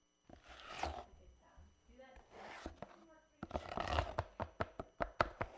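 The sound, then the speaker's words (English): A spackle knife mixes spackle with rough scraping strokes, then breaks into a quick run of many sharp taps and clacks that grow louder toward the end. “Hear that? That's spackle being mixed with a spackle knife. It's one of the many exciting sounds happening off-air to get much more exciting sounds on-air.”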